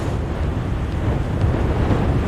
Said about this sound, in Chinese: 这是德雷科风暴，它正横扫休斯敦。